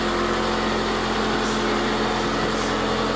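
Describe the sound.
Continuous mechanical drone in a bathroom, like a neighbour drilling: an even, unbroken hum with a steady pitch that runs throughout without pauses.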